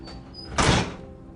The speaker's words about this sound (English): he places the keys in the lock and enters.